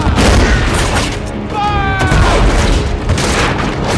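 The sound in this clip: Warships' guns open fire in a naval battle as a British flag is raised, producing a loud, dense, continuous roar of overlapping booms and crashes that barely lets up from start to finish.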